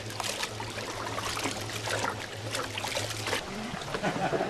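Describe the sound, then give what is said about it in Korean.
Water pours in a steady trickle over steamed glutinous rice in a basket to loosen the clumped grains, flowing continuously for several seconds over a low, constant hum. “다시 한번 물을 가득 부어 뭉친 찹쌀을 풀어줍니다.”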